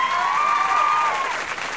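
An awards show audience claps for a presenter arriving to announce the 2005 Best TV Show award. The applause is a steady, dense patter lasting about two seconds, with a sustained musical tone running over it.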